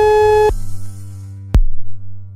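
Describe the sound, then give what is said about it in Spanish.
After a dropped radio call comes an electronic telephone tone: a steady buzzing tone that cuts off, then a sharp click and a low lingering hum. “A ver, hemos perdido la comunicación con Irune, a ver si repetimos. Estamos intentando recuperarla.”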